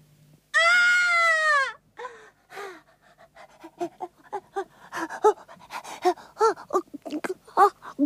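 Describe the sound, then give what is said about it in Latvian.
A little one crying: one long, drawn-out wail with a strong, clear tone, then many short, rapid sobbing or panting bursts that follow one another unevenly. “ko tu raudi, mazais? Nu, kas tā tevi iekaustīs, ko? Vai māmiņa varbūt pazudusi?”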